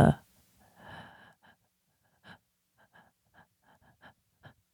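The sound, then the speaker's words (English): A fearful breath demonstrated by a person: one sharp, loud gasping intake at the start, followed by quiet speech. “That's kind of what I would consider like a fearful breath.”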